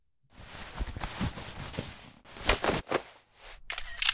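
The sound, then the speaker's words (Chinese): A camera shutter fires in many rapid clicks while photos are taken, coming in dense bursts with short pauses between them at a moderate level. “为什么还要拍照片？”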